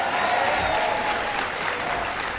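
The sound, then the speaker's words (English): Audience applause follows an introduction at an event in Baltimore: a dense, steady wash of many hands clapping at an even level throughout, with no voices standing out. “Give Duncan a big round of applause for the great introduction”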